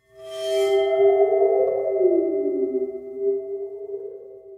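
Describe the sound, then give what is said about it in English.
A waterphone, a metal instrument with water sloshing inside, rings with one sustained metallic tone rich in overtones. The pitch wobbles and bends downward midway, then lingers and slowly fades, with nothing else sounding. “It's a water phone. Water phone, yes. Which is like this metal thing that has some water at the bottom of it. That's why it kind of goes wobble, wobble, wobble.”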